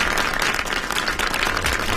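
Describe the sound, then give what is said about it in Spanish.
Applause from an audience, a dense, steady wash of many hands clapping at even loudness throughout, with no voices standing out. “Un aplauso para Bolín. Ahí está.”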